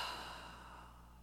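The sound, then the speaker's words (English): A slow, deep exhale during a guided breathing exercise: one breathy, sighing rush of air that fades steadily over about a second, with no talk. “When you're ready and comfortable, I just want you to take a deep breath in and exhale.”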